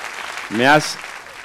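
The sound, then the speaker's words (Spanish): Audience applause welcoming a guest, a soft continuous wash of clapping with a brief vocal whoop rising over it midway. “Ricardo Almenar, un aplauso. Bienvenido.”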